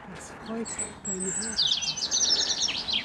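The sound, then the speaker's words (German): A loud bird calls outdoors beside a steep hillside road in a former mining area. Bright, high chirps and quick trills grow busier and more rapid in the second half. “Ich verstehe nichts, der Vogel ist so laut.”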